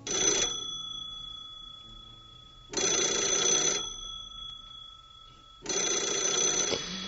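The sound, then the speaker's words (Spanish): An old-style telephone bell rings, not a mobile ringtone. It comes in three loud bursts of bright metallic ringing separated by quiet pauses of about two seconds, with the first burst cut short at the start. “Es un sonido que no tiene que ver con los teléfonos móviles actuales, un sonido así.”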